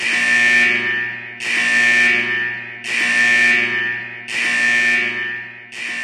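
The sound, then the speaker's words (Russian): A security alarm blares at a facility after an intruder is detected, sounding loud, long, harsh buzzing tones at a steady pitch. Four sustained blasts are separated by short gaps, and a fifth begins at the end. “тут же взревел сигнал тревоги”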